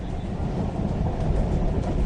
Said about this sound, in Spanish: Escuchá, vamos en el tren.